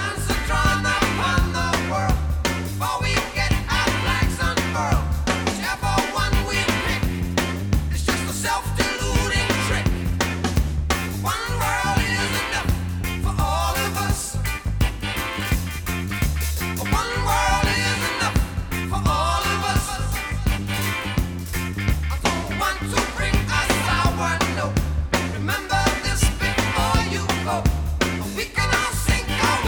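Full-band rock music plays loudly and continuously for about thirty seconds: a steady driving beat, deep bass and layered instruments in a busy, unbroken arrangement.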